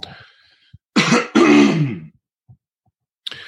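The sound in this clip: Loud throat clearing in two strong, rough bursts, set between a few faint small noises and followed by a short rasp near the end.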